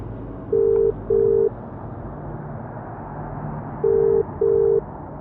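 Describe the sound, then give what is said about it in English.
A phone line rings after a number is dialled: two double-burst ringing tones, each pair made of two short, even beeps, sound over a steady low background rumble. “Excitedly, I dialed the number at the bottom of the email, eager to finally get back on track.”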